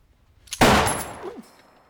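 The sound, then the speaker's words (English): A single gunshot is fired from a trapdoor. It is an abrupt, loud crack that decays over roughly half a second and then fades into quiet. “Matheson pops out of the trapdoor and shoots Bedlovsky.”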